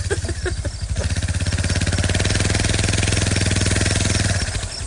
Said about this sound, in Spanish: ¿Qué carajo es ese bullicio? Es una moto como el tiempo de Cristóbal Colón.